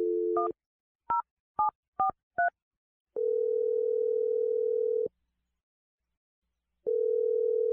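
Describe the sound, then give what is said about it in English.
A telephone number is dialed on a touch-tone keypad with five brief dual-tone beeps, followed by two long, even ringback tones with a gap between them. “Okay, here we go. I'm going to dial her number right now.”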